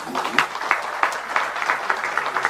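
Warm applause at a party lawmakers' caucus meeting for emergency committee chair Woo Sang-ho: many hands clapping in a fairly steady, dense stream with small irregular surges, no speech on top.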